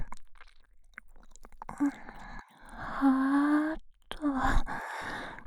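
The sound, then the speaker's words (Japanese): Wet ASMR ear-licking sounds during a role-played ear examination: soft squishy smacks and clicks mixed with breathy sighs and a low, drawn-out moaning voice. “検査がてら、お耳を舐めてチェックしているだけなのですが”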